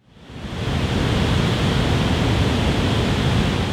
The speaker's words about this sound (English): That's the sound of water flowing over the Clater Lake Hydroelectric Dam in Pulaski County, Virginia.